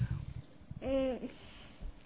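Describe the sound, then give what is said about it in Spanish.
Children's chatter and noise in a room at a children's group, faint murmuring and small sounds, broken in the middle by one child's drawn-out, sing-song vocal sound. “lo que ustedes están escuchando y estas bullitas y todo lo demás, imagínense, con niños, pues como que difícil tenerles quietitos o callados, ¿no?”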